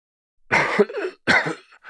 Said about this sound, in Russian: Последовал громкий кашель